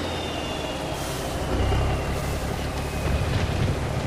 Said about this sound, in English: Outside, a semi-truck drives through the rain. The truck slows in front of her.